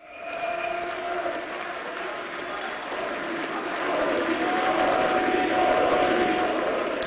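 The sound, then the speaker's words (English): Crowd of far-right supporters cheers and applauds a landslide election victory in the former East German state of Saxony-Anhalt. A steady wash of clapping and voices grows louder in the second half. “That's the sound of supporters of the far-right AfD celebrating a landslide election victory in the former East German state of Saxony-Anhalt.”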